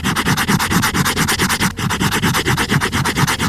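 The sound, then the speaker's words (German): Rubbing on the hardcover binding of a book: many quick, even back-and-forth scraping strokes in a steady, fairly loud rhythm, with a brief dip partway through and no voices. “Ein Hardcover-Einband von einem Buch.”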